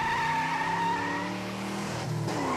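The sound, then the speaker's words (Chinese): Car engine revving hard as it speeds away, a loud sustained roar with a whining tone and tire squeal that dips slightly near the end. “载着小蛋蛋。一脚油门呼啸而去。”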